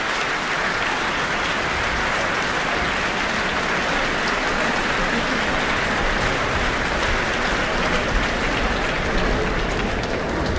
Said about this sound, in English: Great to hear such an enthusiastic response this evening from our audience here in the Auckland Town Hall.